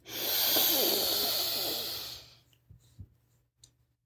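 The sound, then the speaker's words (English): A single deep inhale for a guided breathing exercise: a long, airy rush of breath lasting about two seconds that fades out, followed by a few faint clicks in near silence. “let's start off with two deep breaths. All right, inhale.”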